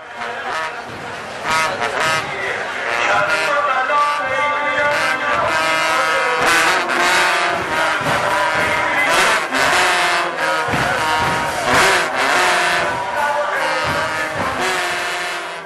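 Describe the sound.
Trumpet played in Shia mourning ceremonies for Imam Hussein: a sustained, brassy tone rich in overtones, with many sharp percussive hits beneath it throughout.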